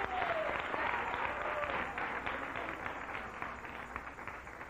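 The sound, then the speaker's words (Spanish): A church audience applauds during a worship service, giving a fairly faint, dense patter of many hands clapping that holds steady and then tapers off slightly toward the end. “Dele un aplauso al Rey. Déselo con todo el corazón, que se escuche que aquí hay un pueblo que ha sido redimido con la sangre de Jesús.”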